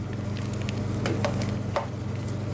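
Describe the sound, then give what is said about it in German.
Ice cream being scooped out of an ice cream machine: several short, wet scrapes over a steady low machine hum. “Schon nach etwa 10 Minuten hat die Maschine ihren Job erledigt. So, und jetzt kommt das Eis raus.”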